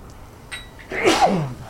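A single sneeze during an Arabic grammar lesson, sharp and fairly loud, rising out of near quiet with a short breathy onset and a quick, voiced burst.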